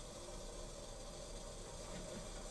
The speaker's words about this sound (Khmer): នៅពេលនេះទឹកនេះខ្ញុំបានដាំរួចហើយដើម្បីឲ្យវាពុះមុនអញ្ចឹងខ្ញុំត្រូវបើកភ្លើងឲ្យវាខ្លាំងបន្តិចដើម្បីឲ្យវាពុះឡើងខ្លាំង